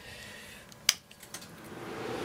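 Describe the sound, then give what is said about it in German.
Cinema projection-room equipment switches on and starts up: a single sharp click, a few faint ticks, then a low hum that slowly builds in loudness toward the end. “Ja, jetzt hört man hier die ganzen Geräte anlaufen.”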